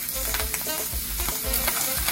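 Tomato paste sizzling in hot oil in a pan, a steady crackling hiss of frying with stirring scrapes running through it, fairly loud and continuous with no talk.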